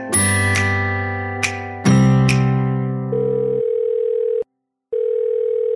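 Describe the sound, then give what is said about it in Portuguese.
A telephone call is placed: a few separate dialing beeps, then a steady mid-pitched ringing tone that stops briefly and resumes, loud and clear with no voices. “sem mais conversas, bora ligar pra Bianca e ouvir que histórias ela tem pra contar pra gente”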